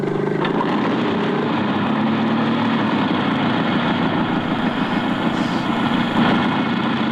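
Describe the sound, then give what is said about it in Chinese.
Hovercraft motorbike engines run in a loud, steady roar with a buzzy, propeller-like drone that stays even in level for the whole stretch, without speech. “全体注意了，使用气垫摩托。”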